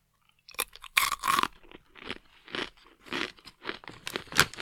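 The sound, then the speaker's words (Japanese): Loud crunching and chewing of a round, crunchy, slightly salty snack topped with caramel or chocolate sauce that sticks a little to the teeth; many sharp crunchy bites come in quick bursts with short pauses, and no one speaks. “丸い形で、ちょっと上にキャラメルソースなのかなチョコソースなのかなはい、ついてるやつです。食べてみます。”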